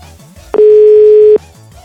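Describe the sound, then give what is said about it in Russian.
A single steady telephone dial tone, loud and constant for just under a second, framed by quieter low sounds before and after. “Че я набираю, я не понимаю. 9, вроде нормально набрал.”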